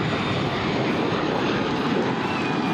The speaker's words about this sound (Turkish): Boeing 747 dünyanın ilk iki katlı uçağı olarak geliştirildi.